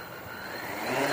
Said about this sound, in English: Now, this is a bit like a helicopter, except it's got six rotors.